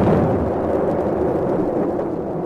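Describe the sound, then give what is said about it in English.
Ship's guns firing as the vessel approaches a channel: a continuous, heavy rumbling din with no separate shots standing out. “An infernal din of guns broke out as we approached the channel.”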